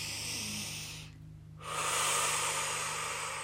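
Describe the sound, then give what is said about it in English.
A deep breath drawn slowly through the airway, heard as two long, breathy rushes of air with a short quiet pause between them. It is soft and steady, with no talking. “A deep breath,”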